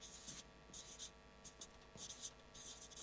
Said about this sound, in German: So, ich glaube, das Wort kann ich auf Anhieb richtig schreiben.